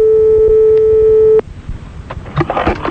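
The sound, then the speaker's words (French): A telephone call tone as someone is rung live from a studio: one steady, mid-pitched electronic tone held for about a second and a half, then cut off abruptly, followed by faint rustling and soft clicks. “Bon, on appelle un monsieur madame Delon dans le studio. Direct.”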